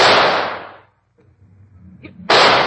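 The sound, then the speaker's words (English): Gunshots fired at an escaped lion in a radio drama: two sharp, loud reports. The first rings out and fades, and the second strikes after a quiet gap filled with faint low rustling. “Stand back, Watson. I'm going to shoot.”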